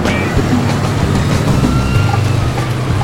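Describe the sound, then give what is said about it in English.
A car pulls away and drives off into traffic, with a steady, loud, low engine rumble and road noise running throughout and no clear breaks. “The car drives into traffic.”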